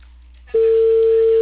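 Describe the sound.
A telephone tone sounds on an unanswered call: after a short low hum, a steady single-pitched tone starts abruptly and holds loud and unbroken to the end.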